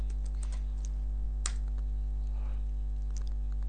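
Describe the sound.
Scattered light taps of someone typing a message on a phone, faint, irregular clicks sitting over a loud, steady electrical hum, with no voices.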